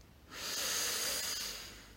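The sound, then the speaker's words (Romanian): A single slow, deep inhale during a guided relaxation meditation, a soft airy rush of breath that swells over about a second and then fades away. “Inspir profund și mă relaxez.”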